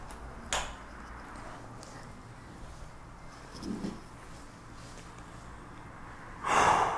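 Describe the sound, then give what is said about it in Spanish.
Slow, deep breathing during a guided practice, inhaling through the nose and exhaling through the mouth: a few soft, airy breath sounds over a low steady hiss, the clearest a brief breathy burst near the end. “Inhala bien profundo, inhala por tu nariz, exhala por tu boca.”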